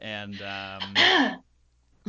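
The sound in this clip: Throat clearing, a voiced, raspy burst of rough harmonics after a stretch of voiced sound, then near silence to the end.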